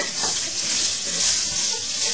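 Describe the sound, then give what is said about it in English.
Food sizzles while frying in a pan until golden, a steady bright hiss that holds evenly throughout with no talk over it. “Fry it until it's a little golden.”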